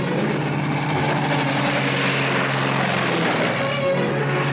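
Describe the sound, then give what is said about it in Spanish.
Light aircraft taxi and take off together in formation in a 1964 film scene, their engines making a steady, loud, dense roar that holds without a break. “Las avionetas se desplazan en perfecta formación por la pista. Alzan el vuelo casi al unísono.”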